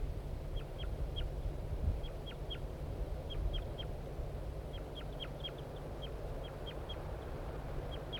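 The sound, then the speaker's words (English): Flight calls from a male bird in a tree near the nest: many short, high, downward-flicking notes in small clusters, faint over a steady low background hum. “I think the female's on the nest and the male's giving flight calls from the tree nearby.”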